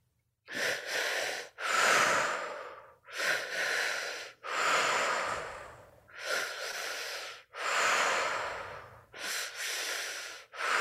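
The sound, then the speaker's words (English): Deep breathwork breathing, drawn in through the belly and let out through the mouth, in several loud, rushing cycles of inhale and exhale that alternate at a steady, unhurried rhythm, with no voices. “keeping that breath moving in and out of the body, into the belly, up into the chest, out through the mouth.”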